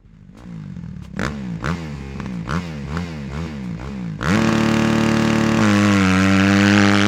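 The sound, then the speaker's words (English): A motorcycle is kick-started and ridden off: uneven, rhythmic chugging pulses give way to a louder, steady engine drone that steps up in tone near the end. “The skinny dude climbed onto the rear seat as his bodyguard kick-started the bike.”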